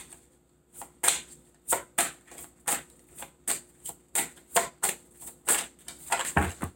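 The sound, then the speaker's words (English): Tarot cards are shuffled and spill out in many quick, faint, sharp taps and slaps, irregularly spaced, with a denser flurry near the end. “And all of these cards just fell out, and that is way too many to take”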